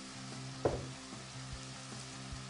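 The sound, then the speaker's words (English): Olive oil sizzling in a frying pan while food browns: a faint, steady hiss with one brief, sharper crackle near the start. “What I'm going to do I'm going to add a little bit more of our uh, olive oil. We're going to really try to get this color to come up now.”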